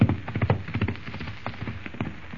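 Hoofbeats of two horses ridden back to a ranch, with a steady, rhythmic thudding of many hoof strikes that is strongest at the start and then continues a little softer.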